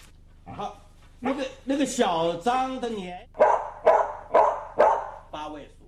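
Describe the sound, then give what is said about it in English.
A dog barks out the digits of a number, ending with a run of short, sharp barks at an even rhythm; speech and drawn-out, wavering sounds come before the barking. “He barked 7 times for the number 7 in the cameraman's number.”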